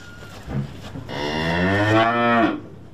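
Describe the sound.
A cow moos once in a long, loud, low call with a tonal, harmonic quality, preceded by softer grunting. The cow is brown with a white blaze on its forehead and is among livestock at pasture.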